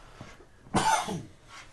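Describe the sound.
One rough, fairly loud cough from a person with a scratchy throat, a harsh burst that fades over about half a second, with quiet before and after.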